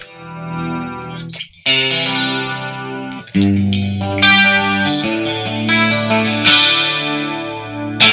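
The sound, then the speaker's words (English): Clean electric guitar with a shimmering chorus effect, pickup selector in the fourth position, strikes several chords that ring and sustain, loud and alone. “I mainly like it for my clean stuff. This is my favorite sound for a clean. This is the fourth position on the guitar.”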